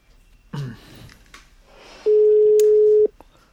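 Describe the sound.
A telephone call being placed, heard as a single steady ringback tone: one mid-pitched beep lasting about a second, which follows a short burst of fainter noise.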